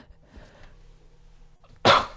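A woman gives a single sharp sneeze while presenting a live weather forecast. The one loud, abrupt burst comes near the end, after a faint low hum.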